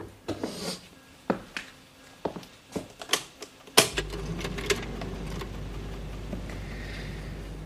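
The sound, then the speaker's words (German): An air filter is switched on to clear moon dust. A scattering of light clicks and taps leads to a sharp switch click, then a steady low hum and hiss that carries on to the end. “Ich werde den Luftfilter einschalten.”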